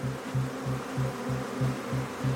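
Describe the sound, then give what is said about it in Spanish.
A swarm of more than 40,000 honeybees buzzes inside a small wall cavity they have colonized. The low hum is steady and throbs in regular, evenly spaced pulses, with no voices. “Aquí hay más de 40.000 abejas. ¿eh? Miles de animalitos, uno sobre otro, moviéndose como arena movediza en un verdadero enjambre que había colonizado aquel pequeño espacio.”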